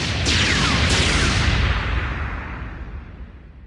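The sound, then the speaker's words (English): Ship's guns firing as an admiral works the gun controls: two sweeping blasts over a loud, dense roar that slowly fades away. “She pulls up the controls and begins to fire.”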